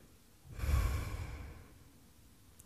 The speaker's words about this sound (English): In the name of God, our Redeemer, and let us breathe together.